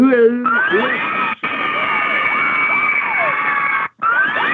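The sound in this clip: Cheerleader squealing: loud, continuous shrill shrieks with overlapping wavering pitches, broken by two brief drops in sound.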